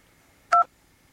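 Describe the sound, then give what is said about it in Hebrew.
A telephone keypad dialing tone sounds as a single short, clear dual-pitched beep from one keypress, alone over a nearly silent background. “אני הולך להשמיע לכם עכשיו את צלילי המקשים. כן, נכון שאנחנו מחייגים למישהו בטלפון, אז יש כזה את הצליל מקשים”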